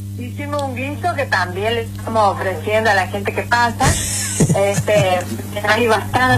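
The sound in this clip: Noodle stew sizzling as it cooks in a pot, shared with passing pilgrims. A steady frying hiss runs under continuous talk from voices, with a low constant hum beneath.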